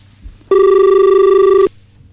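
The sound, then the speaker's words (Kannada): Telephone ringing for an incoming call: one loud, steady electronic ring lasting about a second, a buzzy tone that starts and stops abruptly over a faint low background. “ಇನ್ನೊಂದು ಕರೆ ಇದೆ.”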